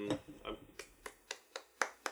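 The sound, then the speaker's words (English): Hand claps given as applause at a wine tasting: a short series of sharp, crisp claps at a slow, even pace, after a moment of talk. “that is my applause for Vineland for keeping the prices accessible.”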